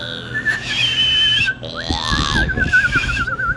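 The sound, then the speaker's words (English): A person whistles: several sustained clear notes, then a quick upward slide, ending in a fast warbling trill. The whistle is fairly loud and steady throughout. “can you give us a whistle here?”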